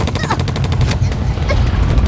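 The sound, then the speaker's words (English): A submachine gun fires a full automatic burst: a loud, rapid, continuous rattle of many shots packed tightly together for about two seconds. “a Brigante stood up, raised his submachine gun, and fired at full burst directly into the stomach of the running boy.”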